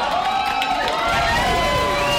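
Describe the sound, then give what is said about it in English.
Supporters cheer at an election night watch party in Hobo's restaurant as candidate Norman comes down the steps, a dense, sustained roar of shouting and cheering voices that stays loud throughout. “supporters cheered Norman as he came down the steps from a private watch party with his family”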